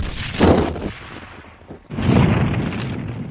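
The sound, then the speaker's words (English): A grenade explodes against an upturned vehicle and ruptures its fuel tank: a heavy boom, then a loud, sustained roaring blast with a high, whistling edge. “He primed a grenade and rolled it lovingly towards the side of the upturned vehicle that housed the fuel tank as he rode back to join his brethren. The grenade exploded, compromising the fuel chamber.”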